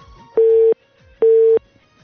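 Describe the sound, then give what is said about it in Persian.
A telephone busy tone sounds after a dropped call: two identical steady, mid-pitched beeps of about a third of a second each, separated by a short gap, loud and alone. “تماس تمنا جان قطع شد.”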